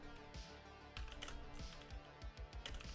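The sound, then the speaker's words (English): Faint, uneven keystrokes of clumsy typing on a computer keyboard tap out in a loose series of soft clicks, some grouped in quick pairs. “You can't type for shit.”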